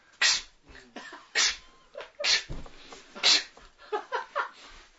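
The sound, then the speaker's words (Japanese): A run of sharp, breathy sneeze-like bursts comes from a person sensitive to dirt and dust. Several short explosive puffs arrive at uneven intervals, fairly faint, with some softer breathy sounds between them. “先生がくしゃみ出るんでしょ。 僕くしゃみ、そう、もう敏感なんです。”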